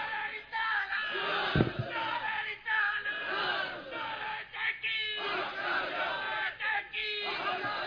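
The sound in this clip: A crowd chants the Nara-e-Haidari religious slogan in unison, loud massed voices rising in repeated bursts with short pauses between phrases.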